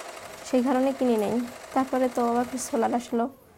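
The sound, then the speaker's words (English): An electric sewing machine, bought for a solar-powered home, stitches with a fast, even mechanical rattle running throughout while a voice talks over it in short bursts. “When we got solar, I bought this machine. Now that there's light at night, I can sew during the night.”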